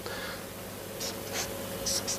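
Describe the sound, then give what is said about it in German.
A pen scratches on paper as something is written down, with faint, brief strokes over a steady background hiss. “Ich schreibe es mal auf, was braucht man dann noch?”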